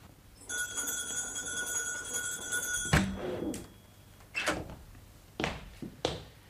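A door opens and closes: a steady high ringing tone sounds first, then a sharp thud cuts it off, followed by a few shorter clunks and knocks spaced apart.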